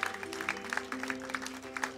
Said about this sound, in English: Can we give these guys a round of applause as we get back on our feet?